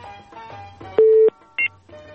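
Electronic beeps as a telephone call is connected: a steady mid-pitched tone of about a third of a second, then a shorter, higher beep, over a faint tonal background.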